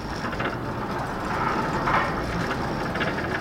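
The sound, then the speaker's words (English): Steady creaky rumble of an elevator being hauled to the top of a very tall tower with a passenger inside, a continuous mechanical grind with faint rattling, ratchet-like ticks and no talking. “Actually, it's the sound of a creaky, rumbling elevator being pulled to the top of a very, very, very tall tower with me inside.”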